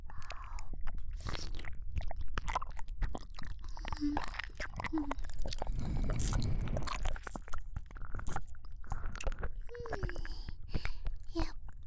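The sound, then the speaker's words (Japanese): Gentle nibbling bites and wet ASMR mouth sounds, many soft clicks, squishes and small crunches in an irregular rhythm, close and intimate throughout. “大丈夫、甘噛みにしといてあげますよ。”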